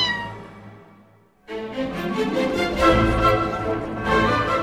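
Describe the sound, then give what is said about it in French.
A cat meows: first a softer, tonal cry that fades away, then after a brief gap a loud, drawn-out, wavering meow that carries on to the end. “Non, ça c'est un chat, hein, pas un serpent.”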